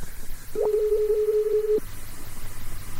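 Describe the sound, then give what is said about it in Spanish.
A telephone signal for an incoming call: one steady mid-pitched tone held for a little over a second, then cut off, over a low background hum. “Que me está entrando una llamada. ¿Es así, operador? ¿Puede decir de que esté entrando una llamada en este momento?”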